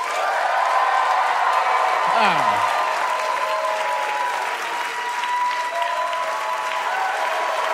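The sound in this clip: An audience cheers and applauds for a contestant in a live debate-style competition. Loud, sustained clapping with scattered whoops runs steadily through the whole clip.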